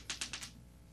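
Dice rolled for a tabletop dice game: four quick, light clicks in rapid succession, faint and crisp, followed by near silence.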